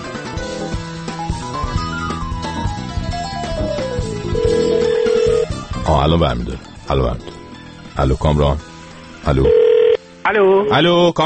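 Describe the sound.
A telephone ringing on an outgoing call, heard as a tinny, melodic ringtone for the first few seconds. Voices then talk over it in choppy bursts.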